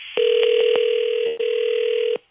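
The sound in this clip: A telephone rings unanswered: a steady electronic ringing tone plays on with one brief break partway through, then cuts off near the end.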